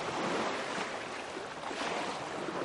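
Sea waves wash around a wheelchair pushed into the water, a continuous soft rushing hiss of surf that stays fairly faint and even throughout, with no voices.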